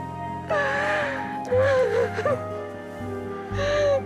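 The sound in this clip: A person crying: wavering, wailing sobs that rise and fall in pitch. They come in a few drawn-out bursts over a steady low background.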